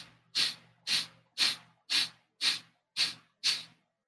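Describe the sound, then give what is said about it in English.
Forceful exhalations, a person breathing out hard seven times in a steady, even rhythm. Each breath is a sharp, airy hiss that rises quickly and tapers off, with no talking. “So breathe out hard 9 times and then just chill after.”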